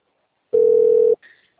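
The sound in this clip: A telephone line tone during a phone call: one steady, clean electronic beep held for just over half a second, loud against silence, then a brief faint sound.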